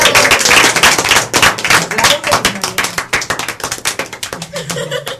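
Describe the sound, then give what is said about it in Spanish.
Applause from a group of people bursts out in quick, dense clapping that stays loud, then thins into looser, more separate claps with a voice or two mixed in. “Pues un aplauso a todos.”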